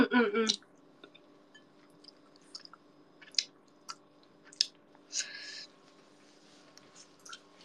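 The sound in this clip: Chocolate rice is chewed in faint, soft squishes with sporadic crunchy clicks, a few louder bursts standing out from near silence.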